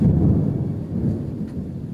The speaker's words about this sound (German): In der Nacht ziehen im Mondlicht dunkle Wolken auf. Über dem See entlädt sich ein heftiges Gewitter.